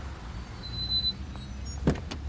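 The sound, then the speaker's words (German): Someone gets into a taxi over a low, steady engine rumble, with a couple of short, sharp door or cabin thumps close together near the end. “Erraten Sie, wer hier ins Taxi steigt?”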